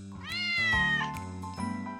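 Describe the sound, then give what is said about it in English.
A cat meows in one long, drawn-out call that rises at the start and then holds, heard over a steady low background drone. “A cat.”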